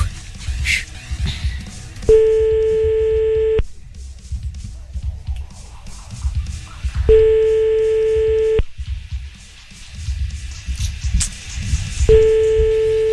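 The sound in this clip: Ringback tones of an outgoing telephone call: three steady tone bursts, each about one and a half seconds long and spaced about five seconds apart, with faint background noise between them.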